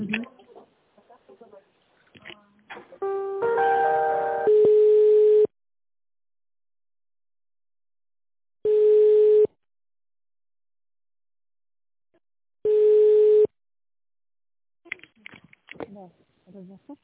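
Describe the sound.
A telephone line tone plays while a call is being transferred. A short cluster of quick beeps comes first, then three long, steady single-pitch tones at even intervals with silence between them. Voices talk briefly at the start and end.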